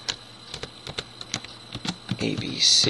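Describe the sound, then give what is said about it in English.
Keys click on a computer keyboard in many light, irregularly spaced taps at a moderate pace, followed by a louder, denser burst of noise at the end. “So I'll type in one that meets those criteria.”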